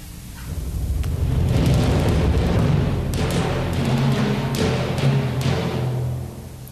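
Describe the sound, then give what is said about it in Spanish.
Orchestral timpani and bass drum imitating hunters' gunshots, deep booming rolls with several sharp hits over a sustained low rumble, loud throughout and with no voices. “Y los disparos de los cazadores los representarán los timbales y el bombo.”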